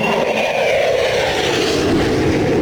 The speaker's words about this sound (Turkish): motor sesinin yankılandığını duyuyorsunuz.